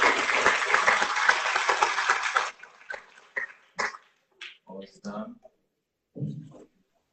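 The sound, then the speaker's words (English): Audience applause at a school graduation ceremony: a little over two seconds of dense, lively clapping that then stops abruptly, followed by a few short bursts of speech and scattered sounds. “Put your hands together”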